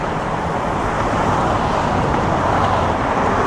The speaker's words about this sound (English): These cars and trucks are at highway speed, and most of the noise they generate is created by their tires on the roadway.